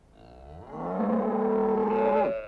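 A cow lets out one long, loud, drawn-out moo that swells and then cuts off, part of a farm scene with cows and sheep in a radio play.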